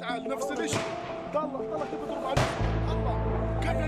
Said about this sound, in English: Look how they are firing at us, he says.